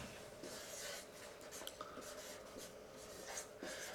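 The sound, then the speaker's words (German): Handwriting on a surface, a run of many short, dry scratching strokes at a steady, moderate level, with brief pauses between bursts and no clear talk over them. “Also, schreib mal auf 0 bis 7 Jahre.”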